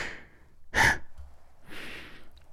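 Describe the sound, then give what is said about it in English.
Close, intimate breathing, a few audible breaths: one short and sharp, one longer and softer, heard alone without talk. “You can already feel my breath, huh?”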